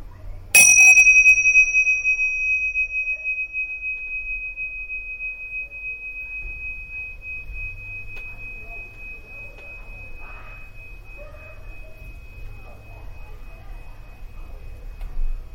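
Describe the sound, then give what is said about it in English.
A single bell strike rings out with a clear, pure tone that lingers and slowly fades over many seconds above a steady low background noise. “keep your attention on the vibration of the bell.”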